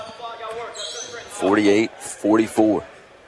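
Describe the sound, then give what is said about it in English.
Basketball dribbled on the court during a game, repeated bounces running beneath a commentator's steady talk. “he's going to dribble this thing until somebody comes out to guard him”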